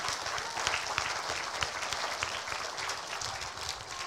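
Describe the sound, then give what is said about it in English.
Audience applause for a soloist at an evening event with a choir: a thick, even wash of many hands clapping, steady in loudness throughout. “Would just give Amy a hand tonight over here, okay?”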